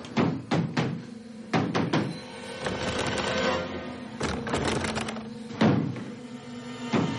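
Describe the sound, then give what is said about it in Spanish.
A man furiously pounds on a bolted bathroom door in a thriller film. Heavy thuds come in irregular bursts of a few blows, separated by a continuous sustained background sound. “Cierra la puerta con cerrojo y él la golpea furioso.”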